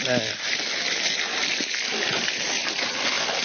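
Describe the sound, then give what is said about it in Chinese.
Running water gushes and splashes as a softshell turtle is rinsed clean, including its lungs. The water makes a continuous broad hiss, with a brief voice near the start. “这个甲鱼抓回来了，就要首先第一步把它冲洗干净，肺上也要冲干净。”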